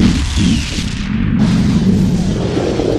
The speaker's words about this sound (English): the alcohol with the vapor just ignites, throwing bits of tin and steel and coal and all these things in all directions.